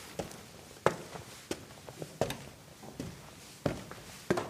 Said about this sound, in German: Schon wieder Treppen steigen. Hört es denn nie auf?